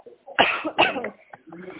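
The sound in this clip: A woman coughs twice, loud and harsh, after choking, followed by a brief fainter breathy sound.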